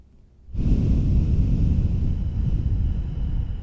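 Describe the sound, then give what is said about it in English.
Deep breathing during a guided breathing exercise: after a moment of quiet, a loud, airy rush of breath begins abruptly and continues steadily for several seconds. “We'll breathe together. So ready, we will exhale and inhale.”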